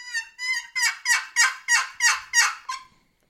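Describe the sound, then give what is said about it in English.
Turkey yelps made by a hunter on a call: nine evenly spaced notes, the first two softer and clearer, the rest louder and raspy, the last trailing off into silence. “So I'm checking him, and all I'm going to do is let out. I'll let out four or five yelps, just.”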